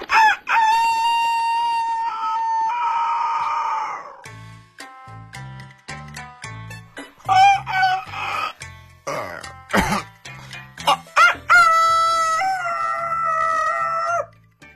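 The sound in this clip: A human voice imitates a rooster crowing, giving several loud, long, drawn-out strained calls with bright harmonic tone, separated by short pauses and gasps.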